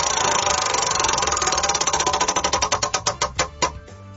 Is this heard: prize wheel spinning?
yes

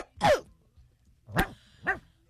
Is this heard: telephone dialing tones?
no

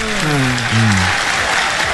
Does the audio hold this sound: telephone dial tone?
no

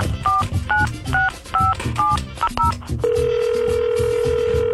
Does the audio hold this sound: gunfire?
no

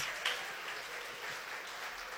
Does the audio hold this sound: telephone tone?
no

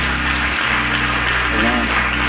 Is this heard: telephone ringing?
no

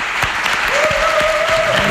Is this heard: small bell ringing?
no

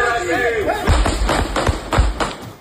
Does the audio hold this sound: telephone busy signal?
no

